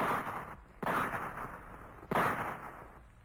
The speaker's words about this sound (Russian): Долго гремели в горах выстрелы, усиленные эхом.